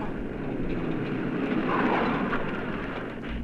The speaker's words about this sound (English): Can I drive you and the lady anywhere, sir? Freddy, a taxi, the very thing.